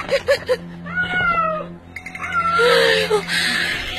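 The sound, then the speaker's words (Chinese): A feral cat meows in a few drawn-out, wavering cries, with higher wailing calls later on. Short yowls come first over a low steady hum. “怕什么呀？是只野猫。”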